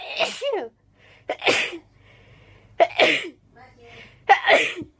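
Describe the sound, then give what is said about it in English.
A woman's rapid sneezing fit: several loud, sharp sneezes in quick succession, with short quiet gaps between the bursts. “by far her most viewed video is titled Rapid Sneezing Fit. It sounds like this.”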